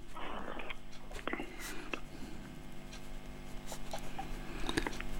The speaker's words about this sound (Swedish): nu ska jag bara skriva här.